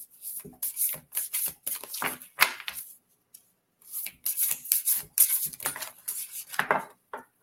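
Tarot cards are shuffled and handled in many short, crisp rustling and slapping bursts that come in irregular clusters, with a brief pause near the middle.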